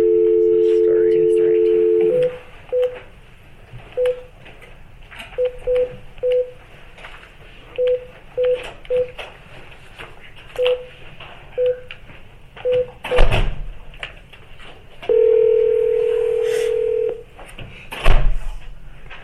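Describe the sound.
Telephone dialing to connect other callers on a conference line: a steady dial tone, then many short keypad beeps in irregular bursts. A longer sustained tone follows, with faint clicks and thumps between the beeps.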